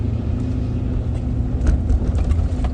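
A car drives steadily, giving a low, even rumble with no clear changes in speed. Soft knocks and bumps come through near the end, and no one speaks.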